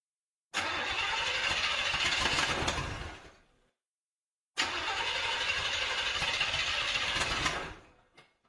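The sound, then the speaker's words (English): A car engine with motor trouble is cranked and started: two long bursts of rough, noisy engine sound, each lasting about three seconds and fading out, separated by a short silence, with no talk. “More motor trouble? It's the same thing. The mechanic said it might happen again. Oh, it started.”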